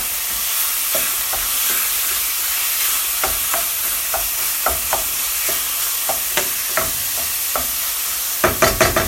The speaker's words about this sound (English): So it's on medium low now. But it's totally fine. You know, meat can stand a lot of browning, and the browning adds flavor.